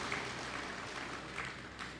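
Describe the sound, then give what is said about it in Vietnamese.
Audience applause welcomes officials at a commune ceremony: a steady, fairly faint wash of clapping that holds evenly for the whole stretch. “Xin hãy dâng cao một tràng vỗ tay để chào đón quý vị lãnh đạo.”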